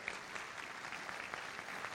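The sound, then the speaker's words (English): Faint, steady applause from an audience honouring leaders who have moved into organizational leadership levels, a dense even patter of many hands throughout. “Okay, at this time, let's give a show of applause to all of these leaders up here who have transitioned into the organizational leadership levels.”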